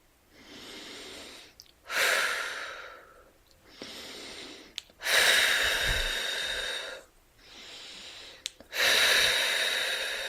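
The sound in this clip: Three slow, deep breaths in and out, each a softer inhale followed by a longer, louder airy exhale, in an even rhythm with no talk.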